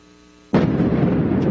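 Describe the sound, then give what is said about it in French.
Explosions in the night sky over Kyiv during air attacks: a sudden, loud boom breaks a low, quiet hum, then a heavy, continuous roaring rumble fills the rest, with another burst near the end. “Des explosions à répétition dans le ciel de Kiev dans la nuit de lundi à mardi.”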